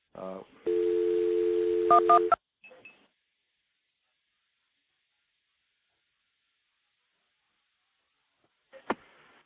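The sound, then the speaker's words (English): Telephone dialing of a recording routed through a stack of five or six trunk lines: a brief stepped tone, then a steady two-tone hum with a few short keypad beeps, followed by silence and a couple of faint clicks. “I'm going to actually dial a recording through the stack of about five or six trunks that I've got stacked up here.”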